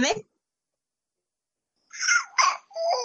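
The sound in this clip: Baby babbling in short, high-pitched vocal bursts: one brief burst at the start, then silence, then a cluster of babbling sounds toward the end.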